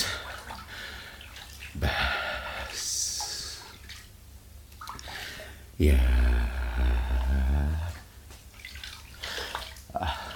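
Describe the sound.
Water flows from a spring in a broad, rushing splash that swells loudly about halfway through and keeps going, with speech heard before and over it.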